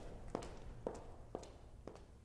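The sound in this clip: A woman's footsteps: four crisp, evenly spaced steps, each a clean, articulated tap, faint and alone.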